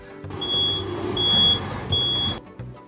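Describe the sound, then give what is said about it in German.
Reversing beeps come from a truck backing up: three evenly spaced, steady high-pitched beeps over a continuous low engine rumble. “Ich fahre gerade mit einem LKW rückwärts.”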